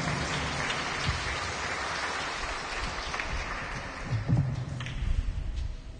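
Applause from an audience at a church service, a diffuse wash of clapping that eases slightly, then swells again with sharper claps toward the end.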